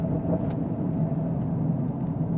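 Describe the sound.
A car being driven gives off a steady low engine and road rumble, a continuous even drone with no distinct separate events.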